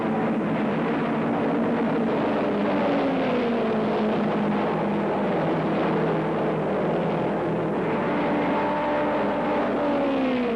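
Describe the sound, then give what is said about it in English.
Race car engines roar as the cars, including a Jaguar, race through the north turn of an Indy car versus Formula One event. A dense, continuous engine drone rises and falls in pitch throughout. “Here they come through the north turn. And what's this? The Jaguar has pushed through the field and is leading the first lap.”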